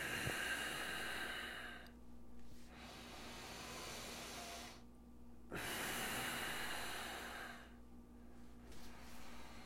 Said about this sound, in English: Make the exhale and go deeper.